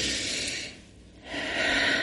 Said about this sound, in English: I want you to take a deep breath in with me.